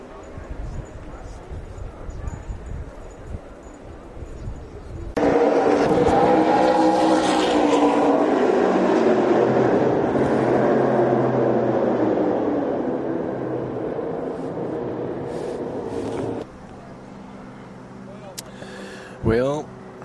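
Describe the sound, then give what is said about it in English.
Race cars braking and slowing for a tarped-off corner, then accelerating through it one at a time: a loud, sustained engine roar with shifting harmonic pitch. It begins abruptly, holds for about eleven seconds, then cuts away to quieter background noise. “watching them break, slow down for that corner, and then just take it, you know, one at a time getting through there.”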